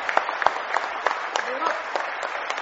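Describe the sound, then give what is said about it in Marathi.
An audience at a school award ceremony applauds a sixth-grade student who placed third. Distinct, fairly sparse claps ring out steadily throughout, with a brief voice heard over them partway through. “जोरात सगळ्यांनी टाळ्या वाजवून त्याचं अभिनंदन करावे.”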